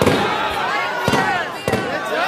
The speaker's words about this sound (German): Die Demonstranten werfen mit Böllern um sich.